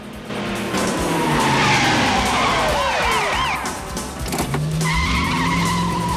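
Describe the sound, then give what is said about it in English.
A red sports car skids during a police chase in the street. Its tires shriek in long warbling squeals over a constant loud engine roar, and a further steady squeal rises near the end. “Having commandeered a red sports car, Storm and Andrea are making good their escape when a couple of squad cars join the chase and head them off in the street.”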